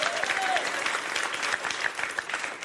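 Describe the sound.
Audience applause breaks out during a talk about illness rumors and vaccination. Many hands clap in a dense, fairly loud wash that continues throughout, with slight swells and dips.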